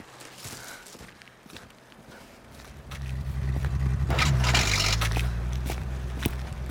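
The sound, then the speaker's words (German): Brisk footsteps of someone walking quickly, a steady run of many steps, with a low, constant rumble swelling in partway through and continuing under the later steps. “Sie laufen wie ein Trompeterpferd.”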